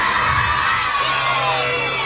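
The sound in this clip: Children shouting together in one loud, sustained burst of high, excited voices, like a crowd yelling in reply.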